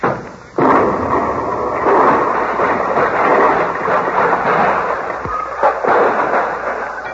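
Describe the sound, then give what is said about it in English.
Explosion of a miniature atom bomb dropped on a floor: after a brief dip, a loud, dense roar cuts in abruptly and rumbles on steadily for several seconds, with a few sharper bursts inside it before it eases slightly at the end. “It's only a miniature. It won't explode. Here, I'll drop it on the floor and show you.”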